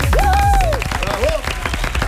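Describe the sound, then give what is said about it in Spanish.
A studio audience breaks into applause, bursts of quick clapping with a couple of brief vocal calls rising above it, loud at first and thinning slightly toward the end. “Un aplauso.”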